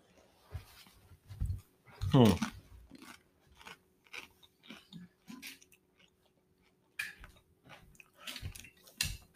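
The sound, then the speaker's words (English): Crunchy chewing of chips eaten with a Mexican-style hot sauce: many short, crackling bites in bursts separated by brief pauses, with people talking between mouthfuls. “Do you think that's partially affected by the fact that we're eating it on chips and?”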